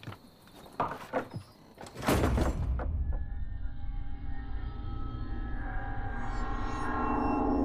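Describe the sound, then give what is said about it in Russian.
A door is closed by a man in a drama scene: a few knocks and bumps, then a loud thud, followed by a steady low rumbling background. “Нина уходит, а Андрей закрывает дверь.”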